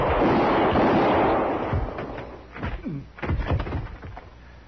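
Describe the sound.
Gunfire in a Western radio drama shootout between a marshal and an outlaw: a loud booming blast rolls off over a second or two, followed by a few sharper knocks and thuds.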